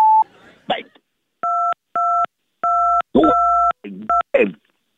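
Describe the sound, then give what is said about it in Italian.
Telephone keypad tones from key 2 being pressed repeatedly, about five short steady two-note beeps with brief bursts of a voice between them. “Premi il tasto 2 per essere collegato.”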